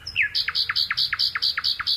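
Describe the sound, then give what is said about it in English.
A nightingale sings in the Gloucestershire countryside of England. A sliding opening note falls away into a rapid, even series of bright, repeated two-part chirps that carry on steadily without pause. “The British countryside is home to a vast array of creatures, but few whose song is quite as melodious as this nightingale, recorded by Philip Radford in Gloucestershire, England.”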